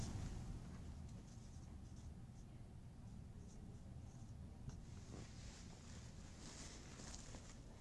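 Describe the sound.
Writing on a board during a lecture, a faint, continuous scratching and scraping over a steady low hiss, with no talk.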